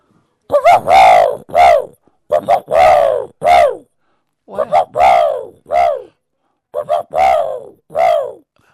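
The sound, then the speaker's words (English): A man's voice imitates a dove cooing, a learned bird-noise act: four repeated phrases, each made of three or four soft, hooting coo notes, with short silent gaps between the phrases. “he taught me a lot of bird noises, but I can still do the dove, and it goes,”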